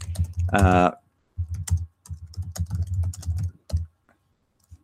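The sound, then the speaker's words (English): Typing on a computer keyboard: rapid runs of key clicks in several bursts separated by short pauses, with a brief voiced sound at the start and the last isolated taps trailing off. “I know you often hear typing on the podcast.”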